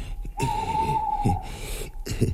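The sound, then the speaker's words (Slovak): An owl hooting: one long, steady, drawn-out hoot held at an even pitch, fairly loud, with a few soft low thumps around it and no voices. “A to iba sova húka.”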